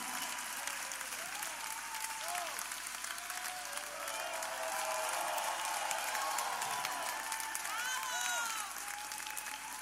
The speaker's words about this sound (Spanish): Muchas gracias, el aplauso.